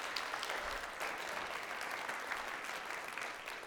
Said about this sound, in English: Can we give everyone who served a big hand?